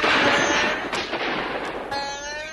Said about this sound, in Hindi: सिपाहियों ने गोलियों की भयानक बरसात कर दी।